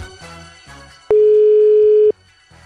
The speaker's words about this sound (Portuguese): E não atendeu. Bom, você que está ouvindo aqui, o programa a gente está tentando ligar para o Sérgio Sacani